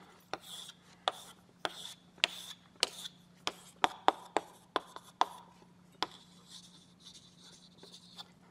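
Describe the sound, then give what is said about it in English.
A pen draws a mathematical diagram in many quick, sharp tapping strokes and short scratchy scribbles over a faint steady hum, with softer scraping toward the end. “So let me draw that. So I'll draw the E2 page.”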